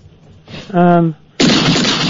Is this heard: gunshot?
yes